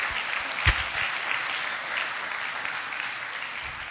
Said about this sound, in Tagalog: Palakpakan natin ang ating Diyos na buhay.